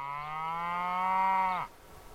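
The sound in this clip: A single long cow moo from cattle grazing in Washington ranch country: a low, steady, droning tone that holds for over a second, then drops and cuts off abruptly, followed by quiet.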